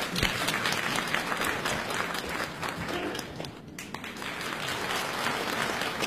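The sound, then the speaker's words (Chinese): Audience applause welcoming contestant number three to perform an improvised crosstalk comedy sketch, a dense wash of clapping that dips briefly midway and then swells again. “好，同时呢也要掌声再次有请我们的三号选手为我们带来即兴的相声小段，有请。”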